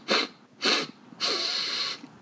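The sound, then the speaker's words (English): A human voice imitates the loud sniffing of a flat-nosed animal nosing at the side of a camping hammock at night. It makes three breathy, noisy snuffling bursts, and the last is the longest. “it just sniffing, this very loud sniffing, and this flat nose pushes into the side of the hammock and is sniffing around like right at my face”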